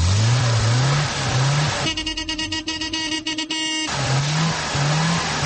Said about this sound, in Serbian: Imamo i priču o tome u kakvoj atmosferi sa proizvodnih traka kragujevačke zastave u istoriju ispraćen poslednji jugo.